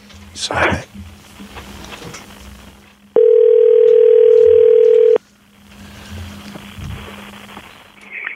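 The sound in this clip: A telephone dial tone sounds while a call is being placed. The steady, loud, unbroken tone lasts about two seconds, with people talking before and after it.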